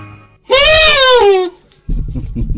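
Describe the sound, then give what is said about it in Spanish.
An Argentine vuvuzela, worn from heavy playing, gives one loud, brassy blast lasting about a second, rich in harmonics, its pitch sagging and cracking downward before it cuts off, followed by a voice. “Nos olvidamos de la bubucela argentina. Bueno, ahí le salió un gallito, porque de tanto tocarlo ayer, quedó medio como así difónico la bubucela.”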